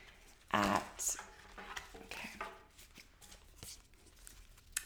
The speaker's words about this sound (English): So I apparently can't talk. Oh my gosh, and shuffle at the same time.